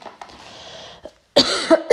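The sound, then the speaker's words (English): A few sharp, loud coughs burst out in quick succession after a quieter stretch of low, hissy background noise. “that's a cough.”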